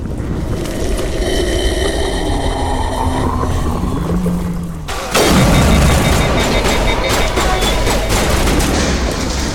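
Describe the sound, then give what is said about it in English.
Sniper gunfire in a video game fight against creepers. A tonal hum and whine fill the first half, then an abrupt, loud burst of dense crackling shots and booms continues to the end. “So these creepers can take four sniper shots to kill.”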